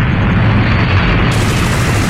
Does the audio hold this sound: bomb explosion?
yes